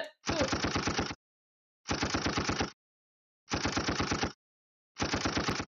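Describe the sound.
Rapid automatic gunfire in four separate bursts, each a fast, evenly spaced string of loud shots lasting under a second, with clean silence between the volleys.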